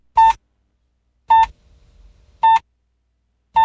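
A radio hourly time signal marks eleven o'clock with four short, identical mid-pitched beeps spaced about a second apart. A faint low rumble sits between two of them.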